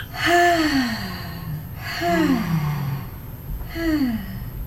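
Deep breathing from a person during a guided relaxation session with holy oil, three long, voiced breaths, each drawn out with a soft moaning, sighing quality, separated by brief pauses.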